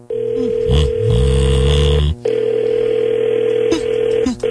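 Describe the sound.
Telephone line tones of an outgoing call hold steady and loud, with a brief break in the tone a little past two seconds and some low burbling early on.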